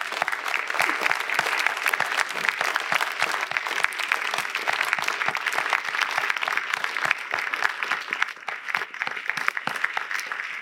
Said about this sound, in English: we want to stand and give her a big standing ovation for her job that she's done raising these kids